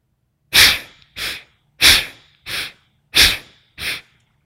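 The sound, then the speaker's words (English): Six quick, forceful inhalations through both nostrils during a paced breathing exercise, each a short breathy rush of air with brief silences between, alternating stronger and slightly softer draws. “Inhaling both nostrils, side one.”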